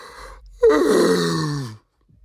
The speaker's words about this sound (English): big ass yawn